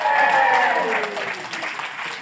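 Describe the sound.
Audience applause welcoming a guest onto a show: dense, continuous clapping that is loudest at the start and eases slightly toward the end.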